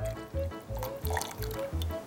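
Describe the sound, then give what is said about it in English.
Clear water poured from one beaker into another in a chemistry lab, with a burbling liquid stream and drip-like pulses repeating in a quick, fairly steady rhythm, no talk over it. “this is my beaker full of normal, clear water. And all I'm going to do is pour it into another beaker”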